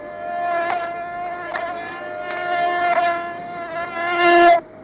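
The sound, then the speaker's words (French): A fly buzzes persistently around a man in a Western film scene, a loud, droning, harmonic hum that swells and dips in pitch and volume, peaks near the end, then cuts off abruptly. “Jack Elam, qui est importuné par la mouche”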